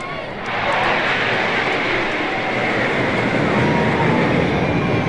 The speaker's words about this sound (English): Here comes another Jet Fighter. Right over the top of us.